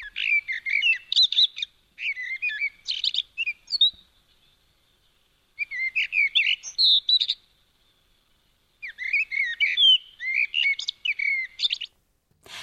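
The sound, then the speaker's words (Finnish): Bright songbird song from a cheerfully hopping bird, in three separate bursts of rapid high chirps and warbling trills with short quiet gaps between them. The song stands alone with no talk. “Kuulimme ihanaa, iloisesti hyppivää sinitöyhtöpiipittäjää. Juh, sillä on eri kaunis ääni.”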